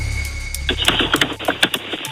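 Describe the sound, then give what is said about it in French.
Keys click on a computer keyboard in many quick, irregular taps over a low hum, the typing starting after a short pause and continuing to the end. “On me dit qu'on entend du pianotage. Vous n'êtes pas en train de regarder sur votre ordi, hein?”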